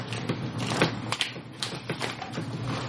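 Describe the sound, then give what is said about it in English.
Paper is pulled out of a pouch, making a series of short rustles, scrapes and crisp clicks at an uneven pace with no speech. “Do you have, like, a full piece of paper, Ryan, instead of an index card? Yeah. Hang on. I gotta get it out of the pouch.”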